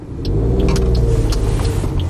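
Steady engine rumble of a car being driven to a car repair workshop. The low, even drone holds throughout and swells slightly after the start, with no talk over it.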